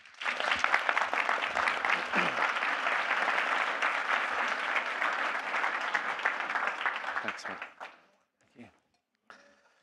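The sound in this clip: Enthusiastic audience applause greets a speaker being introduced at a weekend gathering: dense, loud clapping holds steady for about eight seconds, then dies away, leaving a few faint scattered claps.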